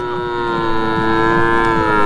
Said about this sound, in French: Jour de transaction au marché de bétail de Kaya. Ce gigantesque parc animalier renferme entre autres des bœufs, des moutons et des chèvres dans des enclos ou attachés les uns aux autres.